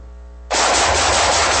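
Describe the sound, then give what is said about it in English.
Automatic gunfire bursts in abruptly after a brief low hum, a loud, rapid, continuous stream of shots that fills the rest of the moment. “Nice shooting.”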